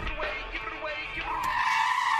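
Car tires skidding and squealing during reckless driving. A rough, broad rush of tire noise runs throughout, and a sustained squeal tone rises out of it in the second half.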